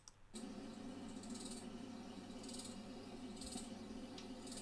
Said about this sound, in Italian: La cavalletta fa questo suono qua.